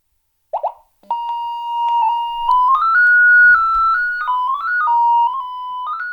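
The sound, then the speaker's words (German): Electronic tone from a light detector device locating a window: a steady beep-like pitch that climbs in small steps to a peak, then drops back down unevenly in stair-like jumps, preceded by a short blip. “Damit kann ich also Lichtquellen im Raum oder eben auch ein Fenster lokalisieren. Das gleiche geht beim Fame auch. Da klingt der Ton vielleicht minimal anders.”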